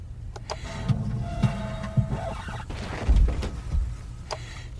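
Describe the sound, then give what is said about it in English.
A record scratch as music on a turntable is interrupted: a whirring, grinding sweep with a thin sustained tone and a few clicks, followed by some dull low thumps. “Record scratch. Sounds like the music was on a turntable.”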